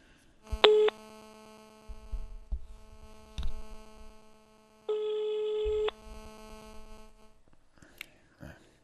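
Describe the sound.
Ringback tone of an outgoing telephone call that goes unanswered and reaches voicemail: a short ring tone, then a longer one lasting about a second, over a steady electrical hum with faint rustling.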